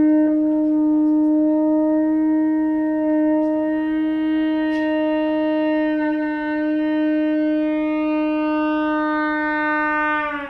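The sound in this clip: A theremin tone, sustained and fairly steady in pitch, that grows buzzier and richer in overtones as fingers open near the pitch antenna. It rings alone at a loud, constant level.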